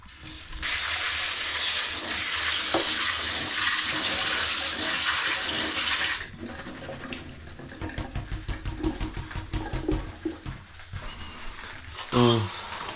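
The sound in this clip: Tap water runs in a steady, loud hiss as about fifty grams of field-fresh produce is rinsed. After roughly six seconds the flow stops, and a series of soft knocks and handling noises follows.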